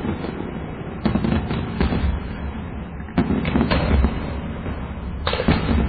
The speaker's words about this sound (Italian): il tizio sta accendendo la carica della batteria di 30 missili e scappa a... L'ha acceso quello che dice, ecco, ora sì. Sparati uno dopo l'altro.